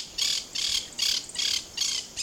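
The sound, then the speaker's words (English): Monk parakeets squawk in a run of loud, harsh, high-pitched calls. The grating bursts repeat in a quick, fairly regular rhythm with short gaps between them, and no voices are heard. “the monk parakeets originate in Argentina and southern Brazil, where they're pests to farmers.”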